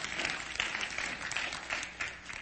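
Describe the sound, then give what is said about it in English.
Congregation clapping hands during a church service, a soft, even patter of many hands with a loose regular beat running through the whole stretch, fairly faint and with no talk over it. “Go ahead and clap your hand.”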